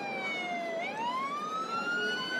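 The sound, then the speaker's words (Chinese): A police car siren wails along city streets, a sustained tone that slides slowly downward, then turns and climbs steadily in pitch. It sounds at a modest level over a low traffic hum. “三河市的大街上到处都是警车”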